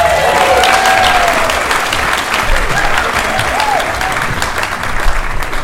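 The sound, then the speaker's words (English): Audience applause at a live recording at Woodford Folk Festival, loud, dense clapping from a large crowd that stays steady and unbroken for several seconds. “Could you please put your hands together for Sarah Steele?”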